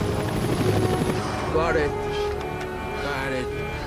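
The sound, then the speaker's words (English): A helicopter lifts off, wobbling during liftoff; a steady, loud rotor and engine roar runs through the whole moment with a dense, throbbing low end. “She braces herself as the chopper wobbles during liftoff.”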